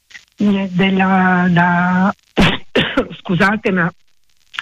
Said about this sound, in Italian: mi sta venendo un attacco di tosse, adesso provo a prendere una pastiglia per cercare di calmarla.